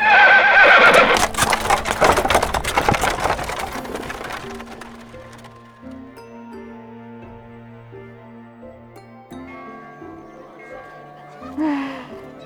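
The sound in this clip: Horses neighing and hooves clip-clopping as a horse-drawn carriage moves along. The sound is loud and dense at the start, then gradually fades to a quieter, steady background, with a brief swell near the end.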